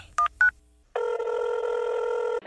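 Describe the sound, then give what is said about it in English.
A telephone number being dialed: two short keypad beeps, then a steady electronic ring tone holding for well over a second before cutting off. “I'm dialing.”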